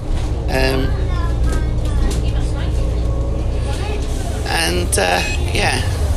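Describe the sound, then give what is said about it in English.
Inside a moving bus, a constant loud low rumble of engine and road noise fills the space, with brief voices and a few short higher-pitched sounds rising above it. “As you can hear, we're on a bus. Because you can't really miss those dulcet tones,”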